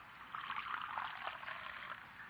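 Coffee being poured into a cup makes a steady, soft liquid trickle that runs for about two seconds without a break, with no voices over it.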